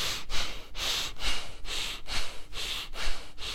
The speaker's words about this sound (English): Use your middle lungs and upper lungs. Nose, all nose. Now I want you to start using the shoulders.